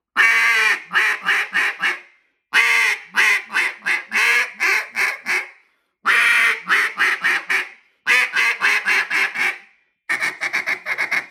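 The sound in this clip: Loud, sharp feed calls blown on a duck call tuned very stiff, pitched deeper and without a high ring: runs of rapid, clipped quacking chatter broken by short pauses, alone with no talk.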